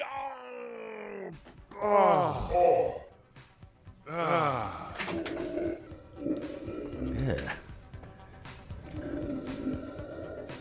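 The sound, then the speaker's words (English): Loud, drawn-out human groans and moaning wails come in several bursts, with quieter vocal sounds between them. “I don't think the groaning was necessary.”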